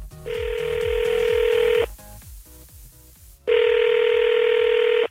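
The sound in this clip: Ringback tone of an outgoing phone call being dialed to Los Angeles: two long, steady, loud tones separated by a quieter pause, with a low rhythmic pulse underneath.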